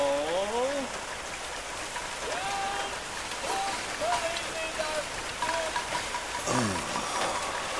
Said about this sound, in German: streckte seine Hand aus, damit er die kühlen Regentropfen spüren konnte